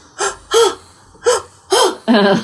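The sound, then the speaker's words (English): A voice imitates hyperventilating heavy breathing with five sharp, loud gasping breaths in a quick, uneven rhythm, each a short breathy intake with a slight voiced catch. “stop it with the breathing. She just does this like,”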